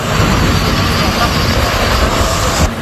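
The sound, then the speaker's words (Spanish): Engines of a column of tractors advancing to cut new firebreaks against a wildfire, a loud, unbroken roar and rumble that holds steady throughout. “La escena que escuchas es la de una columna de tractores que avanza intentando crear nuevos cortafuegos”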